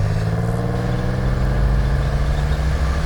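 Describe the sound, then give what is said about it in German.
Engine of an old MG sports car driving fast: a steady, loud, low droning hum with a constant buzzing rumble and no clear pauses. “Fahr schneller. Äh, noch schneller? Dein MG ist doch ein Sportwagen. Ja, aber ein alter Sportwagen.”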